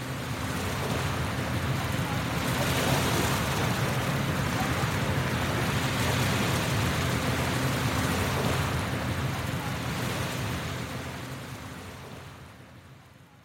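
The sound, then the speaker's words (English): Surf washes over the rocky beach at Volunteer Park in Vancouver, Canada, on a sunny day as a steady, dense rushing roar that slowly fades over the final seconds. “This sound comes from Volunteer Park in Vancouver, Canada. And Yulia even sent us a video. There's sunshine, beach rocks, distant voices.”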